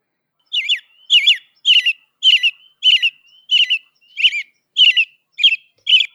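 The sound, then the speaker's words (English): Robin singing: ten short, high, clear warbled phrases repeated at an even pace with brief pauses between, loud and alone. “So let's see if a professional robin does a better job than me.”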